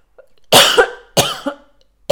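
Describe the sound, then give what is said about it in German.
Harsh coughing from someone who has choked on their own saliva. Two loud, raspy coughing bursts are separated by a short pause, and a third cough begins right at the end, with no talking. “Entschuldigung, mich jetzt an meiner eigenen Spucke verschluckt.”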